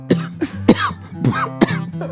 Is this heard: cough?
yes